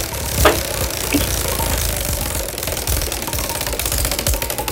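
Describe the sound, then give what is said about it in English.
A prize wheel spins with a rapid, continuous ticking as its pointer clacks against the pegs, a dense run of sharp clicks with no pause. “We're going to spin the wheel”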